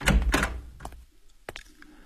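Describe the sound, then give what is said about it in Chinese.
A door is pushed open: a few dull, heavy thuds at the start, then fainter knocks and one sharp tap. No voices are heard. “郑源话音未落，汪世奇就推门进来了，手里举着一根登山手杖。”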